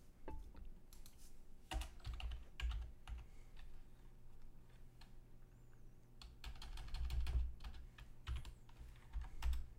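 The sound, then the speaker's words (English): Typing on a computer keyboard: many quick, light key clicks in irregular bursts, with occasional heavier taps, alone and fairly quiet throughout. “Just type in Mortal Kombat 11 release date. I did.”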